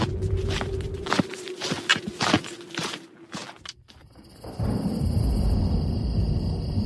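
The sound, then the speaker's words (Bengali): Footsteps of people walking fast along a road as rain threatens: many quick, sharp steps tap out a brisk rhythm for about four seconds, then give way to a steady, broad hiss. “চন্দনরা জোরে হাঁটতে লাগলো, হাঁটতে হাঁটতে বলল”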